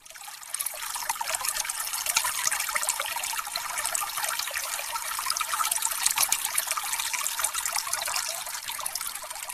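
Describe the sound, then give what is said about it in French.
Free, drinkable mineral spring water runs from a public fountain in a continuous, bright trickle with splashing, holding an even loudness throughout. “elle a le privilège d'abriter encore une eau de source potable et gratuite. Ici, on vient avec sa gourde ou son bidon pour recueillir une denrée rare de nos jours, une eau minérale en libre service”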